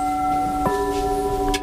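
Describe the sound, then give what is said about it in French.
Struck porcelain rings crystal-clear: bright sustained tones hold throughout, with one distinct tap renewing the ring and a fainter tap near the end, no voices. “Ce son-là, il n'y a que la porcelaine qui le donne. Et pourquoi? Parce qu'en fait, c'est un son cristallin qui nous montre la solidité.”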